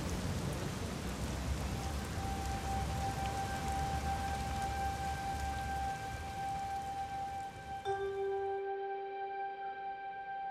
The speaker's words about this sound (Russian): Дождь. За мной. Они вместе прячутся от ливня под деревом.